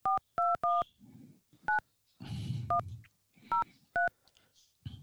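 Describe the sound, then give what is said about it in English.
Touch-tone keypad beeps dialing a toll-free 800 number: seven short dual-tone beeps, three in quick succession and then four spaced further apart, with soft handling noise between them. “We're drunk dialing at this point.”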